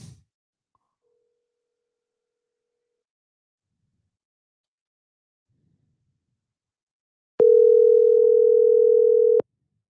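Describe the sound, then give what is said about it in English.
A telephone dial tone sounds while a call is placed back to a caller: one steady, unbroken tone lasting about two seconds, alone after near silence. “So if you're listening here, I'm gonna try calling you back. How about that?”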